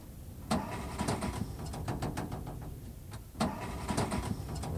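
Car engine being cranked and failing to start after breaking down, two bursts of whirring, rhythmic starter churning with sharp clicks, the engine never catching; moderately loud with no talk.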